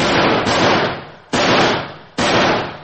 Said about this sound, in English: He's firing! He's firing!